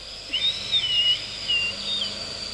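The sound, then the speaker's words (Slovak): Whistling in a few short, high, wavering notes, broken into separate phrases over a soft steady hiss, with no voices. “Ajaj, čo tak hvízdáš?”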